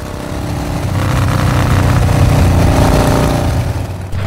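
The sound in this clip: A new motorbike's engine roars loudly and steadily throughout, a dense, rough mechanical drone with no voices.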